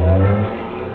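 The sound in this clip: A taxi drives off in a dramatized scene, its low engine hum loud at first, then dropping away after about half a second to a quieter rumble.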